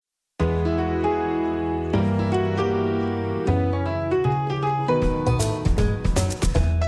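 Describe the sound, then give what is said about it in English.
A show's theme song opens as a bright melodic instrumental with sustained chords that change every second or so, then moves to quicker, denser notes toward the end, all without singing. “Hit the theme song.”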